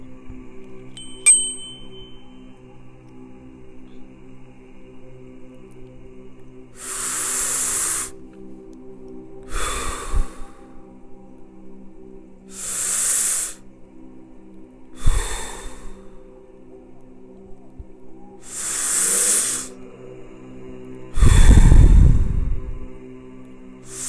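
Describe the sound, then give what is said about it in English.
Six deep, slow breaths rise and fall as airy, hissing rushes of air, spaced a few seconds apart over a faint, steady tonal hum. “We're going to do 15 deep, slow breaths for about 15 seconds and then move into the next breath.”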